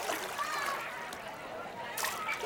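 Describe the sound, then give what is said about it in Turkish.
Splashing and sloshing water at a crowded swimming pool where people are swimming. A continuous, busy wash of splashes runs throughout, with voices mixed in. “Yüzme havuzu. Kalabalık bir yüzme havuzundakilerin kimisi yüzüyor, kimisi etrafındaki şezlonglarda güneşleniyorlar.”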